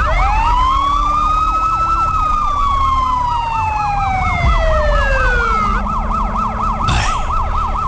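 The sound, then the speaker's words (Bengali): A police car siren wails loudly at a highway accident scene: a fast, continuously oscillating tone layered with slower sweeping tones, with steady road rumble beneath. “এতক্ষণে একটা পুলিশের গাড়ি এসেছে”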